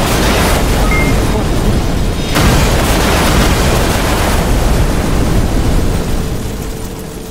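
Loud roaring blast of a powerful missile explosion in a video game, a dense continuous rumble that breaks briefly partway through, then resumes and fades slightly at the end.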